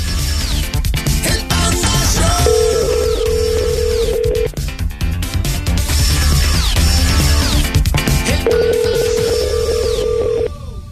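Ringback tone of a dialed phone call: two long, steady, even-pitched tones about six seconds apart, sounding over loud music.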